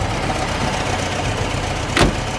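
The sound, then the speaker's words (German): Steady, low engine rumble of an American military supply truck at the Siegfried Line, continuous throughout, with one brief, sharper swish near the end. “Mit denen haben sie alles von den Schiffen an die Front transportiert. Und mit so einem Lastwagen ist der John eben mitgefahren.”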